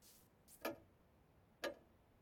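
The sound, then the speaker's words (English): A wall clock ticking in a classroom: two faint, crisp ticks about a second apart over a soft background hiss, with no voices. “In a classroom, a wall clock shows 2:56.”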